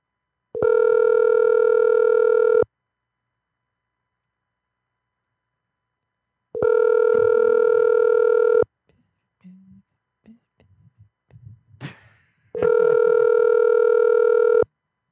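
Telephone ringing tone on a call placed through an internet calling service: three long, steady buzzing rings of about two seconds each, separated by silence, with faint scattered clicks and rustles before the last ring.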